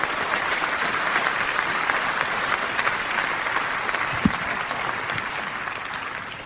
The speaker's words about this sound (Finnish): Aplodien kerran, tervetuloa.